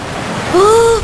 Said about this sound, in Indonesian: Pantai, seger.